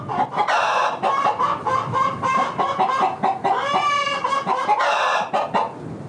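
Chickens clucking on a poultry farm, a loud, dense chorus of many overlapping clucks and squawks that keeps on without a break.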